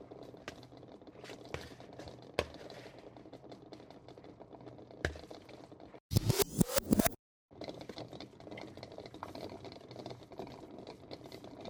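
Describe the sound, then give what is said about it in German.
A mixture is stirred after a teaspoon of mustard is added, heard as one loud burst of rapid scraping and clattering about a second long, set among faint scattered ticks and quiet stretches. “Noch einen Teelöffel Senf. So. Und dann rühren wir das mal um.”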